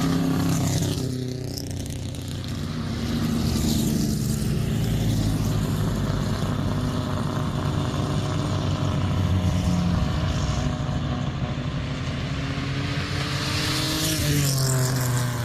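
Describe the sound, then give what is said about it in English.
Exhaust note of a quick Wolseley car driving past on a street: a loud, steady engine drone with layered low rumbling harmonics that holds for the whole stretch, with no voices. “I want to get the exhaust notes. That Wolseley was a quick car,”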